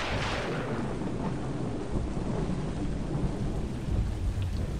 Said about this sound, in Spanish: Alcé la vista y lo que minutos antes había sido un cielo dorado sin rostro, se había transformado en un cielo gris de tormenta. Las gotas de lluvia cayeron con violencia sobre los techos de las casas.